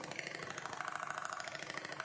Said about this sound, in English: The composer Natalia Bayliss made an album from sewing sounds recorded on a Singer 5802C.